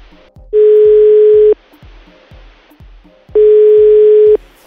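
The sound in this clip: Telephone tone heard while calling someone: two long, steady, loud tone bursts with a pause between them, over faint rhythmic low thumps.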